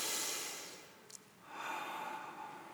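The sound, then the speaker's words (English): Slow, deep meditative breathing into the belly: two soft, airy breaths separated by a short pause, faint and unaccompanied by speech. “Then take a couple of nice deep breaths into your belly.”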